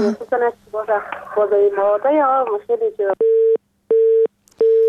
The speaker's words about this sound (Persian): متاسفانه تماس خواهر ما قطع شد و حرفایش نیمه مان